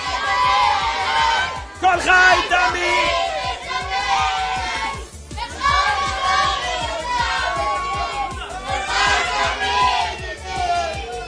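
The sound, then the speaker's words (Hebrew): A crowd in a stand, children's voices among them, screams a chant at full voice in loud rhythmic bursts of shouting and cheering that barely let up. “הוא צרח פה ללא ספק, הוא הוציא את הגרון, אבל גם אתם כולכם.”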